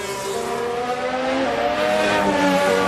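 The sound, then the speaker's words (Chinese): Mercedes Formula One race cars running on track, a continuous high, buzzing engine whine with several layered tones that hold steady and loud across the whole stretch. “这边还是两辆梅奔的赛车”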